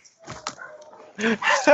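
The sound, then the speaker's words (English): Small dogs bark in a flurry of short, shrill yips and barks, growing louder and denser toward the end. “Let me go and deal with these little dogs.”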